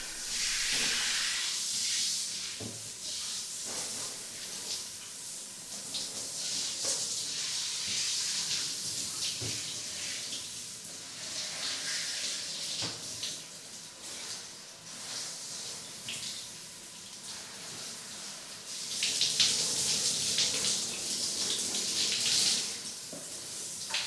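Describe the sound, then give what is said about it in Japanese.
A shower runs during a hair wash, giving a steady, broad hiss of spraying water that swells and eases slightly in intensity throughout, with no voices. “シャワーを出してと、”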